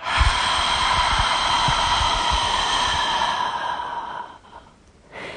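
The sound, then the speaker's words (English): A deep breath is drawn in through the nose and let out during a mindfulness exercise. A long, steady, airy rush fades near the end, followed by a brief breath. “let's take two deep breaths. Inhale through the nose and exhale.”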